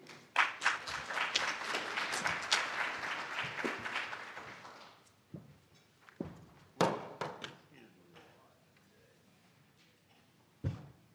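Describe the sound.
Audience applause welcomes a speaker who has just been introduced: dense clapping for about four seconds, then thinning and fading, followed by a few scattered thumps and footsteps.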